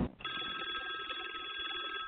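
A telephone rings for an incoming caller: a single bright, buzzy electronic ring sounds at a steady level for about two seconds, starting just after a brief thump.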